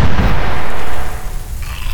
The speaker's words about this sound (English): raises his pistol and fires a shot through his skull.